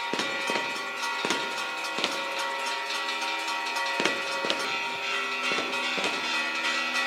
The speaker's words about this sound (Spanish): suena la traca de voladores.